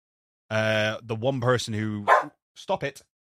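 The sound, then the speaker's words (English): A dog barks in a quick series of sharp, high barks and yips, several close together, then a short pause and a few more brief yips. “I'm just getting barked at for no reason.”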